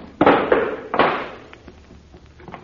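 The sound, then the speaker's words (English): Heavy thuds as a stuck trap door cover is forced up: three loud, dull knocks within the first second, then quieter scrapes and rattles that fade out. “Here, hold the flash. I'll lift it up. Can you do it alone? Oh, sure. It's not heavy. It's just stuck. It probably hasn't been open since the Middle Ages.”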